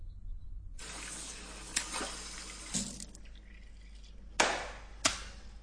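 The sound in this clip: Tap water runs steadily as a man washes his face, with a few sharp, louder splashes breaking through the continuous stream.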